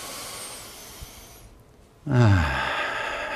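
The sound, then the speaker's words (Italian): Deep breathing during an exercise cool-down after marching in place: a long, soft airy inhale fades out, then a louder rushing exhale with a breathy, hissing texture, heard alone. “faremo 4 grandi respirazioni, inspiro,”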